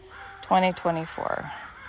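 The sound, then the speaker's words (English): Crows caw in a park at a nature center in Southern California. Two harsh, harmonic caws are followed by a quicker rattling call, all fairly loud over a soft outdoor background. “I'm at the park. You hear the birds? Oh, that's a new one.”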